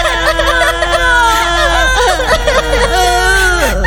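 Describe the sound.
Children bursting into sobs: several wavering, whimpering cries overlap and rise and fall continuously at a loud, steady level throughout.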